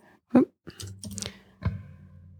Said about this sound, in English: I will copy and paste what I typed, and maybe you can see something wrong with it.